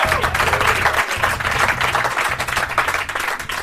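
A live audience in Milwaukee applauds to welcome a host at a live show, with dense, sustained clapping that stays loud and even throughout without a break.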